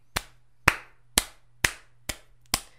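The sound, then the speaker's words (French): Slow clapping: six sharp, evenly spaced hand claps about half a second apart, each a crisp smack with a short decay, over a faint low hum. “Je vous slow clap toutes et tous parce que, en effet, il est grand temps qu'on parle de Dora l'exploratrice. Bravo, bravo à elle.”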